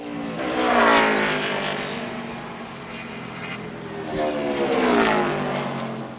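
NASCAR race cars roar through the final laps of a race, a loud, continuous engine drone that swells twice as cars sweep past, with no voices.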